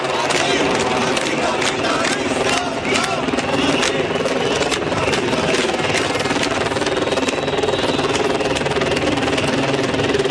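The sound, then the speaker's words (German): Helicopters flying over Barcelona city centre: a steady, loud droning with rapid rotor chopping pulses throughout. “Wir hören hier Hubschrauber. Teilweise waren zwei Hubschrauber im Einsatz über dem Zentrum von Barcelona.”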